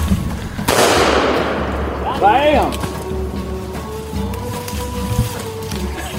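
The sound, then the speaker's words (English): A single sharp blast from a .410 shotgun rings out while hunting gray squirrels in the Ozark Mountains. The crack is followed by a decaying rumble, with people talking over the quieter stretch afterward. “One shot with a 410.”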